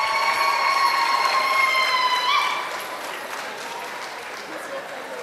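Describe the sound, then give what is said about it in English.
Audience applause fills a packed ballroom at an evening celebration: dense, steady clapping that drops to a quieter, sustained level about halfway through, with a voice over it. “Give a round of applause for the people who made this happen.”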